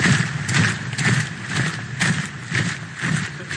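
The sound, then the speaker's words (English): Sound effect of a marching army: rhythmic tramping of many feet in a steady, evenly spaced beat, with heavy thuds repeating about twice a second throughout, with no voices. “That was the sound of a marching army.”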